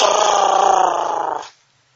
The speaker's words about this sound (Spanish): Resonaban los pasos del gigante por el jardín y se oían los gruñidos.